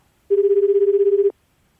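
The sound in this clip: Ringback tone of an outgoing phone call: a single warbling, buzzy tone of steady pitch lasts about one second, then stops, with no voices.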